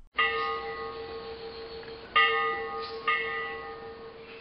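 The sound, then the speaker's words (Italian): A cracked ship's bell on a departing ferry boat tolls three times. Each bright metallic strike rings out with layered overtones and a long, slowly fading sustain before the next blow. “la campana crepata rintoccò e una voce dette l'ordine di mollare.”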